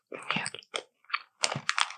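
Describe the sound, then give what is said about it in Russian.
Dry croutons being crunched and chewed, several short, crisp crackling bursts separated by brief pauses, moderately loud with a slightly softened crunch. “Ну, слушай, у сухариков звук как-то более смягченный. Либо ты их так ешь, либо он более смягченный, в отличие от чипсов резких.”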